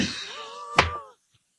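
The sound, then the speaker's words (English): A microphone is dropped onto a surface, giving a single sharp thud partway through a drawn-out vocal exclamation, followed by near silence. “Hold on. Here's my mic drop.”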